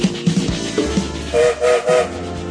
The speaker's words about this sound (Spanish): Se largó el tren, subite